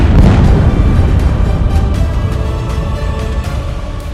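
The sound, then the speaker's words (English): A bomb explosion booms as a loud, deep rumble that starts heavily and fades slowly over several seconds. “Let's drop some bombs!”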